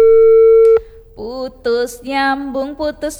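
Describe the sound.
Telephone busy tone after a dropped call: a single steady mid-pitched tone lasting under a second, cut off abruptly, followed by a short gap and then a voice speaking.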